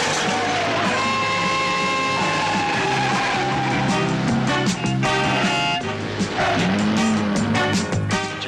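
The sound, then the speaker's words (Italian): Car chase with screeching tyres and roaring engines as a BMW is pursued by a Fiat 124 Sport, a loud, continuous rush of skids and engine noise throughout. “I due banditi sono fuggiti a bordo di una BMW, inseguiti dal commissario Betti su una 124 Sport. Accelera, muoviti!”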